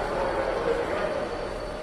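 A passenger train running, with a dense, steady rumble and rattle throughout and a faint, thin squealing tone held above it.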